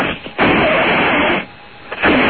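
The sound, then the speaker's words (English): Someone blowing up a balloon: two long, rushing puffs of breath separated by a short pause, loud and airy. “Let me blow up the balloon. Hold up.”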